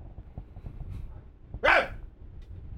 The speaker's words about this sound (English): That's my dog.